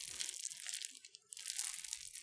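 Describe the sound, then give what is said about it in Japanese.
Bread is squeezed and crushed, giving crisp, crackling crunches and crinkles in bright bursts, with a short lull partway through before the crushing resumes. “これ以上圧迫すると、パンが潰れてしまうかもしれませんが”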